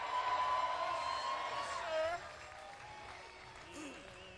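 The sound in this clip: Applause and cheering from an audience welcoming a bass singer on stage, under a speaking voice. It is fuller for about two seconds, then drops to a quieter patter.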